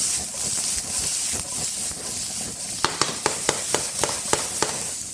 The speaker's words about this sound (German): Und jetzt Zwiebeln und Speck dazu.